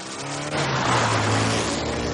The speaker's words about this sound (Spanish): El coche se aleja a toda velocidad.